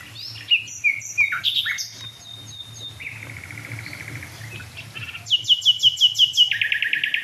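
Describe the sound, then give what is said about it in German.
Nightingale song among dead oak trees: varied phrases of clear whistles, buzzy notes and rapid trills, ending in a loud, rhythmic run of sharp repeated notes. “Nachtigall.”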